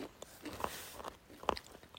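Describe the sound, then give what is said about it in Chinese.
Faint crisp crunches of biscuits and rice crackers being bitten and chewed slowly by someone with few teeth. A few short, sharp bites stand out over quiet chewing. “现在已经吃起来了，好好吃哦。好多种口味哦，嗯，那米果”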